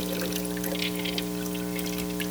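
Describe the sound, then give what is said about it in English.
Liquid poured into a filter over a cup, a steady, even stream of soft pouring that runs unbroken for the whole moment against a low, constant hum. “So let's see. This should be a filter where we pour this in and”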